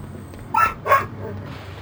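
A dog gives two sharp, quick barks in close succession over a steady low background rumble.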